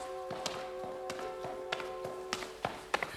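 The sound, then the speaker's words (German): Three men stumble down the stairs to a cellar, giving many irregular wooden thumps and taps at an uneven pace over a steady low hum. “Dann stolpern sie die Treppe zum Keller hinunter.”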